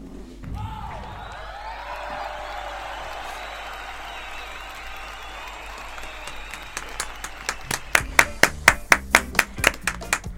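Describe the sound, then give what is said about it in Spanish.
Applause at the end of a live radio-drama performance that used homemade sound effects: a steady hissing wash of noise gives way to sharp, separate hand claps that grow louder and denser toward the end. “¡Ovación! ¡Qué espectacular! ¡Qué espectacular lo que acaban de hacer!”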